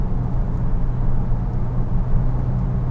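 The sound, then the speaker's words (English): A car drives on a wet, puddled road on worn tires, making a continuous low rumble of engine and road noise with a broad hiss above it. It holds steady throughout, with no talk. “Lots of puddling out here, folks. Hydroplaning. Me with my shitty tires.”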